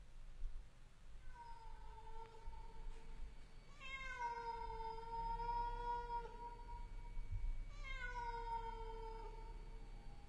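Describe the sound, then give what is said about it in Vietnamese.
A cat meows mournfully at night in a few long, drawn-out, wavering calls, the first fainter and the later two loud and sustained, over a low steady background hum. “văng vẳng trong không gian, có tiếng con mèo kêu lên, nghe thê thiết.”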